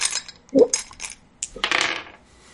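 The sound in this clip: Dice being rummaged for during a tabletop role-playing game, a few bursts of small, hard rattles and clicks, like pieces clattering against each other, with a brief duller knock among them.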